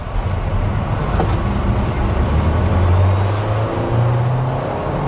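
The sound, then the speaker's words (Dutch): A combustion-engine car with a gearbox accelerates at full throttle from a traffic light. Its loud, steady engine drone carries through a gear change. “Hoor de verbrandingsmotor ook. Nu schakelt hij. Wel een soort vertraging als je schakelt.”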